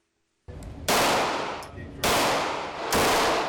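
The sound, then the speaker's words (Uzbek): Gunfire at a shooting practice in Charleston's Somerville neighbourhood: a few loud, harsh blasts in quick succession, each one trailing into a sustained noisy roar before the next shot cuts in. “Charleston shahri Somerville mahallasida o'q uzish mashqi o'tyapti.”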